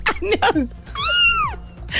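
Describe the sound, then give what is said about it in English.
A cat meowing: one long, drawn-out meow whose pitch arches up and then falls, heard clearly after some shorter voiced sounds. “meow. Meow. I think that's my cat.”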